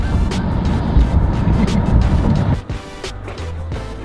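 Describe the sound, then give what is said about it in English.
A Bentley car being driven gives off a loud, steady rumble of engine and road noise that drops abruptly to a quieter low hum near the end. “Now we're driving the Bentley. Just like Ace. There we go. This is how you drive a Bentley. You gotta let them see you coming.”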